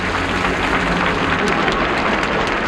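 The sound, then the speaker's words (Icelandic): Crowd cheering and applauding as Vigdís, Iceland's newly elected president, steps onto the balcony of her house: a thick, continuous roar of clapping and massed voices, loud and steady throughout. “Og nú gengur Vigdís fram á svalirnar á húsi sínu og hún tekur við fagnaðalátum fólksins.”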